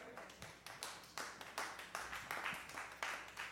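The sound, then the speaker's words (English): Sparse clapping from a church audience during a sermon: a thin, quiet series of sharp, separate claps at a fairly steady pace, with no crowd roar behind them. “I knew I wasn't going to get that many claps on that.”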